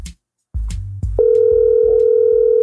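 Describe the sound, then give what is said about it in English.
A telephone call is placed: a few soft clicks and thumps lead into a steady, continuous tone that holds to the end, with faint clicks beneath it. “Let me see if I can get Tonya B on the phone, because I did ask her. Let me see if I can get Tonya B. Hang on, man. Let me try to call Tonya B.”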